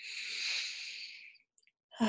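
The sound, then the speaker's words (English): A deep breath during a guided relaxation: a long, airy exhale swells to a soft peak and then fades away over about a second and a half, followed by a brief quiet. “And then just take one more deep breath, anchoring this in the here and now present moment.”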